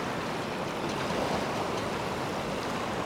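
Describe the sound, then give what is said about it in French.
A rising tide gives a steady, continuous rushing of water, moderately loud and unbroken throughout, with no distinct separate wave breaks. “voici donc la marée montante.”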